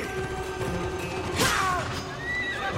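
A horse whinnies in a video game during a mounted fight: a single high, quavering neigh rises out of steady game background noise midway through.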